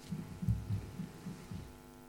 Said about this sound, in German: Ich möchte nochmal das Herz meines Sohnes zu hören.